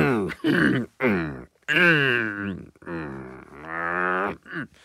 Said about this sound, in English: Sorry about that. I had something stuck in my throat.